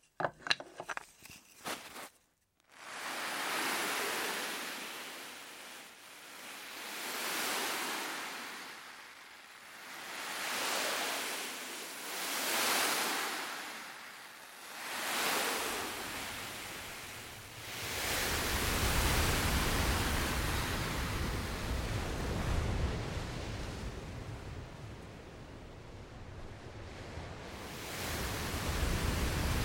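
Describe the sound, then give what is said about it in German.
Ocean waves breaking, made as handmade foley blended with archive sound design. A few sharp clicks open, then soft surges swell and fade in a slow rhythm, giving way to a steady, fuller wash of surf. “und zwar genau in dem Rhythmus, wie die Welle auch wirklich bricht. Und wenn man das einbettet in ein Sounddesign, dann ist es einfach eine perfekte Mischung zwischen handgemachtem Geräusch und Sounddesign aus dem Archiv.”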